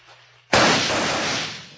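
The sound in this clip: A gunshot in a Western shootout: one sudden, loud, sharp blast after a faint low hum, followed by a long, rumbling decay that slowly fades.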